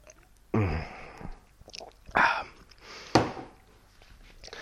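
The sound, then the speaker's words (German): Someone takes a sip of a drink, heard as a few short, breathy mouth and swallowing noises separated by pauses, fairly soft and with no talking. “ich muss einen Schluck nehmen”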